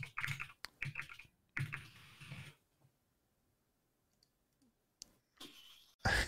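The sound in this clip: Computer keyboard keys click rapidly as a chat message is typed: a dense flurry of keystrokes, a stretch of near silence, then another short burst of typing.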